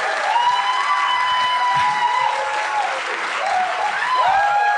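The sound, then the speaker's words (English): Loud applause from a live audience at a show in Toronto: a dense, steady roar of clapping that holds at full strength throughout without a break. “Now, I've had some loud applauses before, but Jesus Christ. That wasn't an invitation for more.”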